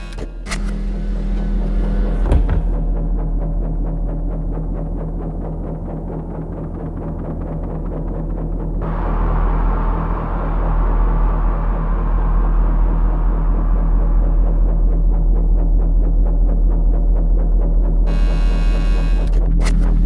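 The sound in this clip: A rock song opens with a throbbing, machine-like synthesizer hum: a steady low drone with a slow pulse. About halfway through, a brighter, swelling layer joins and builds without any singing.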